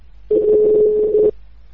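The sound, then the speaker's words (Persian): A telephone tone plays as a call is placed to a man for an interview: one steady, mid-pitched tone lasting about a second, then it cuts off abruptly, with no talk. “در همین رابطه تماس گرفتیم با خود آقای رضوی. توجه شما را به این گفتگو جلب می‌کنم.”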